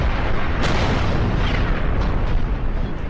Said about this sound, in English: I just blew in the hole in the side of the window.